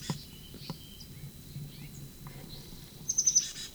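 Faint high peeps from a bird called a sycamore bird: a few soft, scattered calls over a quiet background, then a quick burst of brighter chirps near the end.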